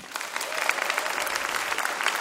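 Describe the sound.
An audience claps steadily to welcome a pair of folk musicians onto a stage. The applause is dense and even, holding at a constant level throughout.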